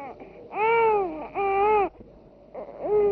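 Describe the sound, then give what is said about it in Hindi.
A baby cries loudly in long, strained wails with quieter whimpering gaps between them. There are a few drawn-out sobbing bursts, each bending slightly in pitch. “बाबा इतना जोर जोर से क्यों रो रहा था? दूर से इसके रोने की आवाज सुनाई दे रही थी।”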